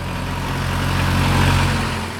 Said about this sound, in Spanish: Un coche pasó.